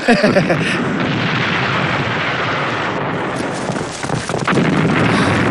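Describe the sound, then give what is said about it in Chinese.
Bombs dropped from aircraft explode outside a city during an air raid, merging into a loud, dense, continuous roar of blasts and rumbling that barely lets up, with a brief dip near the end before it swells again. “这城外炸得真热闹”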